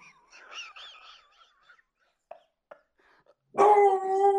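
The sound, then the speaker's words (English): A dog gives a few thin, faint whines and short yips, then breaks into a loud, sustained, tonal howl that holds steady to the end. “That was my dog, Carlin”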